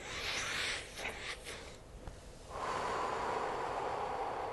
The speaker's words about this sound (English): Nice deep breath.